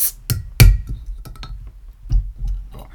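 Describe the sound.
A glass bottle of Spezi is opened with a bottle opener, producing a few sharp metallic clicks and glassy clinks, with short quiet gaps between them.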